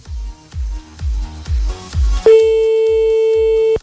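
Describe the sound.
Telephone ringback tone of an outgoing call that goes unanswered: a steady, loud mid-pitched tone sets in and holds, following five evenly spaced, low rhythmic thuds.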